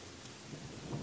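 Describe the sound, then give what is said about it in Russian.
A thunderstorm with rain: a dense, steady hiss of falling rain over a low, rolling thunder rumble that grows slightly louder toward the end. “Начинался очередной в этот день грозовой дождь, и я решил переждать в ближайшем магазине.”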